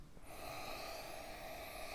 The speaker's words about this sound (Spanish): Vamos entre todos a soplar desde aquí donde estamos tres veces, ¿no? Conectándonos con ese aliento infinito.